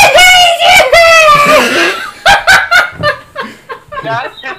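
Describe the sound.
A voice imitates an anime character's power-up scream: a loud, strained, sustained yell lasting about two seconds, which then breaks into choppy bursts of laughter.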